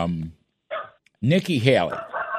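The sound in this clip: A dog barks a couple of short, low woofs, followed by a person talking over further sound.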